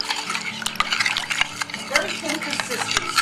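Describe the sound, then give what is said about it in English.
Flour being stirred into water in a bowl, heard as continuous rapid scraping and clicking of a utensil against the bowl at a busy, uneven pace, with no talking. “Keep stirring. Almost like you were making a paste, but very, very thin. Keep moving it. Moving it around because you want the flour to dissolve.”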